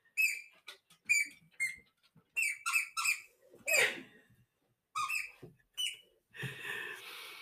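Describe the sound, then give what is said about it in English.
A dog squeaking a squeaky toy, giving many short, high-pitched rubbery squeaks in an uneven rhythm, some in quick clusters, ending in a longer, rougher squeal. “And my girl's just come in with a squeaky toy. So if you hear some squeaking in the background, she's been raiding her toy cupboard.”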